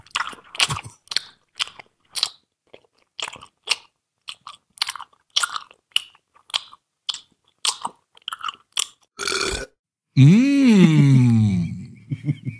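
A man chewing a lemon snack bar close to the microphone: many wet, crunchy bites and smacks in an uneven rhythm, then a long, voiced moan that rises and falls in pitch.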